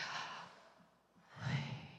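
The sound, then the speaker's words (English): A church audience inhales together in unison, a soft, breathy rush of air that swells, dips and swells again, faint and without speech. “When they inhale, will you do that with me? One more time.”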